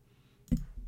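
A computer mouse clicks once to open a link, a single short, faint click heard alone against low background noise.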